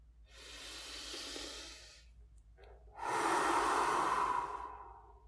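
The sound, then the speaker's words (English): A slow, deep breath during a guided relaxation: a soft, airy inhale lasting a couple of seconds, a brief pause, then a longer and louder breathy exhale, with no talk. “You can now take a deep breath.”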